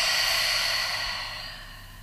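A long exhale through a guided breathing exercise, an airy breathy hiss that starts strong and gradually fades over about two seconds, with no talking.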